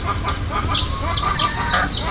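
Geese and chickens on a hillside farm in Tenerife, calling with many nasal honks and squawks in quick, overlapping succession, fairly loud throughout, with no talking.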